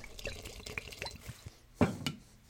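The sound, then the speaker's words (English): Good bourbon, about three ounces, poured into a drink: a short, fairly quiet liquid trickle with small drips and splashes and a brief louder splash near the end. “Now we're going to add about 3 ounces of this good bourbon.”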